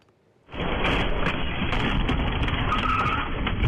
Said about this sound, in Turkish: Kontrolden çıkan araç verandayı aşıp masayı dağıttı.